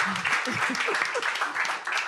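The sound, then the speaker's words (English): Audience giving a round of applause, dense steady clapping from many hands with voices mixed in underneath. “Can we just give him a hand, like a round of applause?”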